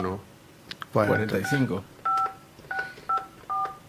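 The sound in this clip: Touch-tone telephone dialing: a few short, clear keypad beeps sound one after another at an uneven pace, following a stretch of people talking.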